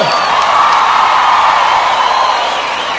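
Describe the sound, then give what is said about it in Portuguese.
Audience cheering and whooping, loud and sustained, a dense crowd roar that stays steady throughout with little change in level. “Nós batemos palmas pra vocês.”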